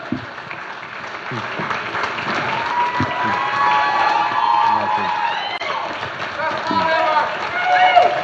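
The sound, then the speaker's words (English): Church audience applauding a pastor as she comes to the platform: steady clapping with voices calling out above it, building slightly toward the end. “And I want you to put your hands together and welcome Pastor Robie as she comes to the platform and just blesses us today with the word.”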